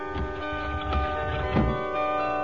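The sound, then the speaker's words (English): Bells ringing on Christmas Day: sustained, overlapping metallic tones that hum steadily, with a few accented strokes rising out of the continuous ringing. “Those bells... It must be Christmas Day.”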